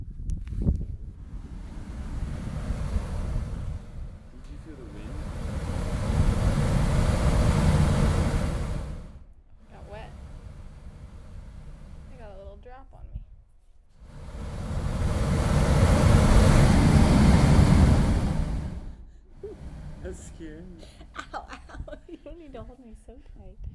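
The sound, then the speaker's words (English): Sea water rushes in and out beneath the rocks of big coves below a coastal fort in Lagos. Two loud, broad roaring surges rise and fall, with a quieter, steady wash between them. “This is the sound of some of the big coves at a fort in Lagos that we visited, water rushing in and out under the rocks.”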